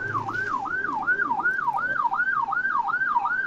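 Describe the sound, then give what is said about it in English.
An ambulance siren wails as it passes on a highway. The loud, steady siren rises and falls in pitch over and over in a quick, even cycle, with no talk. “I'm driving an highway and ambulance, like, yep. Going by.”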